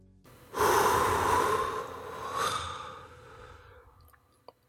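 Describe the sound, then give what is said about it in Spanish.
A long, slow exhalation during a breathing exercise makes a soft, airy rush. It swells, eases off, then fades out, and a tiny click follows. “Ahora haré el ejercicio completo. Botar el aire.”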